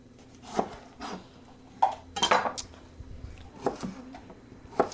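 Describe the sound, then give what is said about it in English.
Kitchen knife and utensil clatter while tomatoes are sliced about a centimeter thick on a cutting board for the grill, with a few sharp, irregular clinks and knocks over a low steady hum. “I like to slice tomatoes about a centimeter thick, toss those on the grill.”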